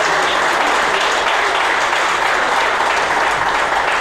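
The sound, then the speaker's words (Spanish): Applause from an audience at a meeting, given for a newly presented federation, a steady, even roar of many clapping hands that holds at the same loudness for the whole four seconds. “les pido un aplauso a esta federación”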